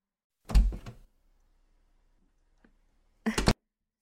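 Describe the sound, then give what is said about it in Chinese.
A car door being opened: two loud clunking bursts separated by a long quiet gap, the first longer and rattling, the second short and sharp, with a faint click in between. “好的好的，我来帮你把门打开。”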